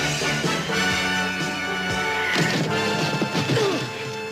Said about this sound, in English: I caught a downdraft and it kind of threw off my landing.